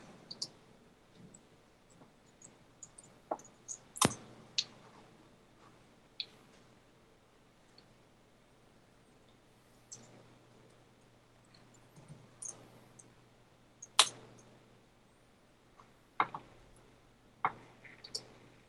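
Faint, sharp computer mouse clicks while a file is saved, scattered irregularly at many points over a low steady hum.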